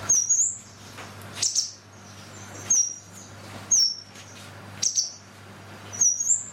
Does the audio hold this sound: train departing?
no